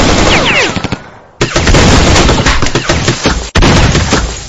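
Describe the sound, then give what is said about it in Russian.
Heavy automatic gunfire from all sides in a small room: dense, loud machine-gun rattle that runs almost continuously, broken by two brief pauses. “ворвался в небольшое помещение, и тут попал под шквальный огонь со всех сторон”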